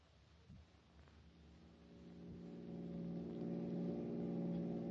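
A car driving, as a radio drama sound effect: a steady low engine drone with a faint mechanical rumble, swelling louder through the second half, with no voices.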